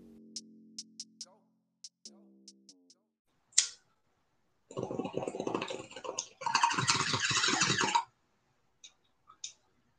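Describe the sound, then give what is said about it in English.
Bubbling gurgle of a bong rip, a dense noisy burst lasting a few seconds in two stretches, preceded by short clicks and tones and followed by a few faint ticks. “you heard the bong rip in the background”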